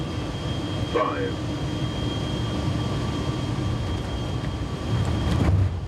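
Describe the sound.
Constant engine drone with a thin high whine from a Luftwaffe aircraft landing in sand under reduced visibility, swelling slightly louder near the end.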